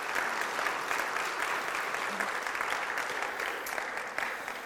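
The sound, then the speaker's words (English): A church audience applauds the worship team during a morning service, giving steady, dense clapping that holds at an even level for several seconds before easing slightly at the end. “And so let's just give a round of applause just for the worship this morning.”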